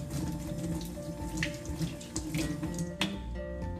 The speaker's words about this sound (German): deswegen waschen wir jetzt noch mal kurz die Hände.